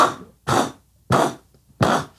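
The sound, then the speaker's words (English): An unusual sneeze: four short, forceful breathy bursts in a quick, fairly even rhythm, loud and heard alone. “Was that a sneeze? Yeah. Do you always sneeze like that? Yeah, it's my sneeze, bro.”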